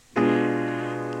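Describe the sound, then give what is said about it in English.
A blocked chord, its notes struck together at one sharp onset, then rings out as a rich, sustained harmony that fades only slightly. “When the notes of a chord are played together, it's called a blocked chord. It sounds like this.”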